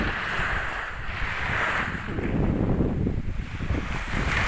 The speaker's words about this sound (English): And yes, there's wind. It had to be wind. There had to be wind.